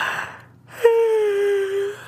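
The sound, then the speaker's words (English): A person yawns: a breathy intake, a short pause, then a long voiced exhalation lasting about a second whose pitch drifts slowly downward before fading. “You're yawning. And your eyes are drooping.”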